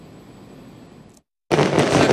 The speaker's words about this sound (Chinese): 璀璨的烟花在维多利亚港上空绽放